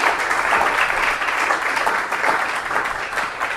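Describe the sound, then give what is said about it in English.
Audience applause greets a speaker being introduced at a talk: dense, steady clapping from many hands that stays even and loud for the whole few seconds, with no voices over it. “Please give him a warm applause.”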